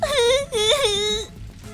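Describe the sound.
Hoarse, despairing crying comes from inside a room behind a door that stays shut during a fire. A voice wails in two drawn-out, wavering bursts, then trails off into quiet.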